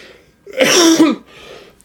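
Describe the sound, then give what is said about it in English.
A single loud, rough cough with a wet sputter bursts out for about half a second, then trails into faint breathy noise. “Cough, spit, sputter.”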